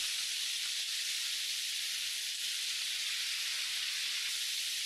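Steady, bright sizzling of garlic frying in soya oil in a pan, beside pumpkin slices, holds a constant hiss without pause for the whole stretch, with no talking over it.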